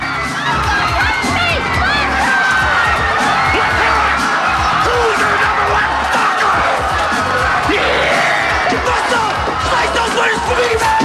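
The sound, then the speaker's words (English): A crowd roars as a muscle-bound wrestler in a yellow vest appears, with a loud, unbroken wash of cheering, whoops and high-pitched yells that lasts throughout. “Crowds greet a muscle-bound star in a yellow wrestler's vest.”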